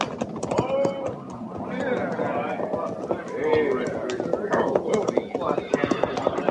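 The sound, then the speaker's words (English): Hooves of a rider's horse arriving, with quick, rhythmic clip-clop beats that run throughout under men talking. “Yeah, that'll be Harrison riding in, Captain.”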